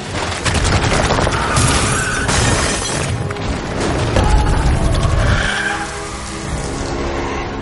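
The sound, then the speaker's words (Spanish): A wall cracks apart and splits a channel through the cement in a ruined street in a fantasy film: loud, dense grinding and rumbling with crashing, shattering bursts that run without pause. “De pronto una de las paredes comienza a rajarse con fuerza y continúa sin parar abriendo un canal el cemento por donde va pasando.”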